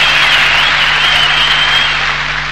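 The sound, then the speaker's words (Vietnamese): Applause breaks out after two songs are performed at a singing contest, a dense, steady wash of clapping that stays loud and even for the whole stretch, with no voices standing out. “tiếng vỗ tay vang lên như sau”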